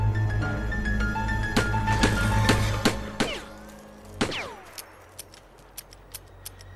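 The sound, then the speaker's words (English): A handgun is emptied into the side of an anthill. A string of sharp, loud cracks is followed by several fainter, duller thuds at a slower pace, over a steady low droning hum. “Blount has emptied his handgun into the side of the mound. The bullets have thudded harmlessly into the anthill”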